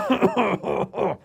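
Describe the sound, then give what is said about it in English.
A fake cough, voiced aloud by a person as four short, tonal bursts in quick succession. The voice imitates coughing rather than producing a real one. “But I'm fake coughing, so literally I go,”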